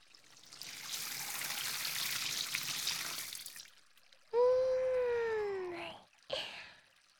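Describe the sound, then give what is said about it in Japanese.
Water pours over a person's head during hair washing: a steady splashing rush lasts about three seconds, then a short, higher tonal sound follows. “まずは頭から流して全部一気に洗っちゃいますよ。”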